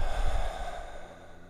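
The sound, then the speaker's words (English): A deep meditative breath, mainly a soft airy exhale through the mouth, heard as a gentle sigh that fades over about a second and a half above a steady low drone. “Again, inhaling through the nose, and out the mouth.”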